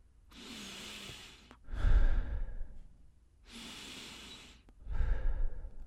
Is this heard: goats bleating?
no